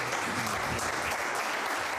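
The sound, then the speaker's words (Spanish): Journalists applaud Zinedine Zidane at a press conference as he rises from his chair, a steady, even round of clapping at moderate volume. “Ovación por parte de los periodistas para Zinedine Zidane, que se levanta de su silla, también lo hace Florentino Pérez, se dan la mano en este momento, posan ante los fotógrafos.”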